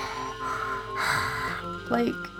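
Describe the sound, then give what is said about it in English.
A human voice imitates creepy horror-movie breathing with slow, raspy drawn breaths and a wavering voiced tone that swells and fades. “I could hear breathing, like creepy, like that,”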